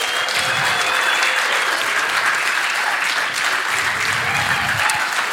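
An audience at a church service gives steady applause as a performer comes up on stage. The clapping is dense and even and stays loud throughout, with no voice rising above it.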